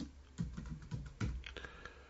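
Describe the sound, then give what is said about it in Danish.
Someone types into a text field on a computer keyboard, producing soft, irregular key clicks, with a few firmer taps standing out among quieter ones. “Jeg indsætter tekst, altså et tekstfelt. Og så skriver jeg her.”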